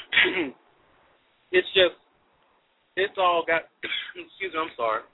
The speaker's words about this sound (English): I'm sorry, I got a cough.